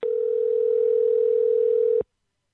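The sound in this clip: Telephone dial tone after a dropped call: a single steady, continuous mid-pitched hum that holds for about two seconds, then cuts off abruptly into silence.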